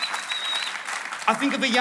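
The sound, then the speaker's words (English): Audience applause fills a church in a brief burst of dense, even clapping, with voices rising over it toward the end. “Let's give him a huge round of applause.”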